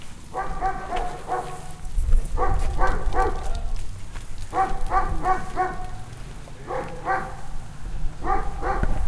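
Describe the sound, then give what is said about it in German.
A dog barks, the local electronics shop's dog in Brandenburg, letting out five clusters of quick, sharp barks over a steady low background hiss. “Bellt auch mal irgendwo ein Hund, auch mal direkter.”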